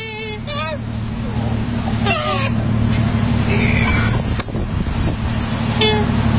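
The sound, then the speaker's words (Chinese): Two male koalas fighting give several hoarse, squeaky, trumpet-like squeals in short bursts over a constant low rumbling drone. “我们有一段声音，你听听这个考拉打架的时候是一个什么样的声响。”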